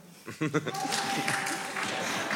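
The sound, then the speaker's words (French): Audience applause from about 800 people voting against a menstrual-leave bill by clapping: dense, steady clapping that swells in and continues under talking voices. “Alors, par applaudissement, qui est contre?”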